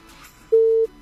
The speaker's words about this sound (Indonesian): Iya, kok diputus sih? Padahal udah masuk tadi loh ya.